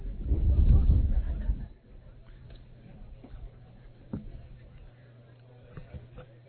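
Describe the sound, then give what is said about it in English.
Wind buffets a field microphone at a baseball game, a loud low rumble for nearly two seconds that drops to a quieter, steady hum with a few faint ticks. “Still breezy out here, as you can hear in the field mic.”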